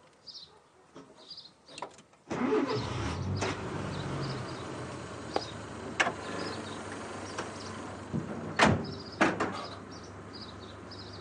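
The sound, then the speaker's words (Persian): A car engine being started: a few quiet clicks and knocks, then a sudden steady low idling rumble that keeps running, with occasional sharp knocks over it. “لطفاً استارت بزنید.”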